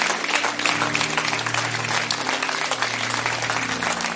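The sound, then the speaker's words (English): A church audience applauds and cheers in praise of Jesus after a service, with steady, dense clapping over a low sustained tone. “All glory to Jesus. Can we give it up for Jesus? Let's make some noise for Jesus.”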